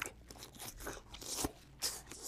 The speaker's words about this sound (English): Take a bite, man. Oh, definitely. Here, let me see. We can just, like, chew it together.